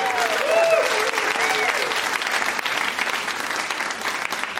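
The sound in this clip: Audience applause welcomes a speaker to the stage: dense, steady clapping from a crowd that holds at an even loudness throughout with no break.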